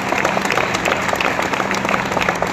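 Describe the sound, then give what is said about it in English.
A church audience applauding with dense, continuous hand clapping, a loud, even wash of overlapping claps with no pause and faint crowd noise mixed in. “Come on, give the Lord a hand clap.”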